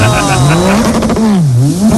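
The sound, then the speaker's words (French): A jet ski engine revving loudly: a buzzing motor tone whose pitch wavers up and down, dipping and climbing again across two seconds, with no pause. “pour vous rafraîchir, faites comme moi, faites du jet ski.”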